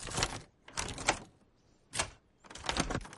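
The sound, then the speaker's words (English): A key turns in a house's front door lock, giving a few dry, scraping rattles separated by short pauses, with nothing else heard. “Dad goes to lock the door. Hey, Dad. Can I lock it? Yeah. He hands Marcus the key. Grimacing, Marcus stands at the lock.”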